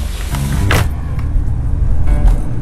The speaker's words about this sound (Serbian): Uđi u automobil.